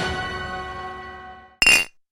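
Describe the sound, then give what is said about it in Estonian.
An empty glass jar gives a single bright, sharp clink, loud and ringing briefly before it cuts off, after a fading tonal hum. “Supp valmis, aga kuhu see tühi klaaspurk käib?”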